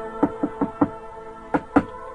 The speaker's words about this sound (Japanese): 今度はこの家行ってみようか。 OK。じゃあ今度は僕がノックする番だね。